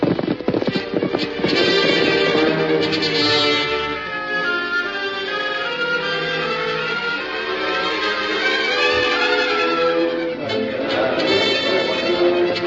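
Horses of a posse galloping out after escaped prisoners, their hooves clip-clopping in a steady, rapid drumming that stays loud and continuous throughout.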